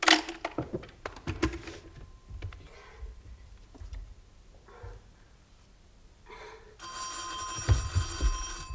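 A telephone bell rings for an incoming call, a loud, steady electric ring that comes in near the end after a stretch of faint knocks and rustling.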